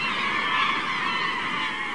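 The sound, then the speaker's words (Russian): A dense, unbroken chorus of many birds calling as they flock to feed on herring spawn. Honking cries blend into a steady, bright wall of sound with no pauses. “Миллионы птиц прилетают, чтобы получить свою долю щедрости сельди.”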